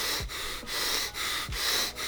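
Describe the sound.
Rapid, heavy breathing is demonstrated as over-breathing, with loud, forceful breaths following one another in a quick, steady rhythm and only brief gaps between them. No one talks.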